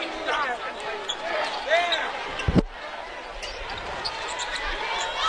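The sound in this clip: A basketball bounces during a game, a single sharp low thud on the court while a voice talks over the scene.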